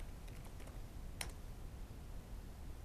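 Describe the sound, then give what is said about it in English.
Faint typing on a computer keyboard, a few soft key clicks in scattered bursts over low background hiss. “So he didn't understand, so I can type like, I want to provide feedback.”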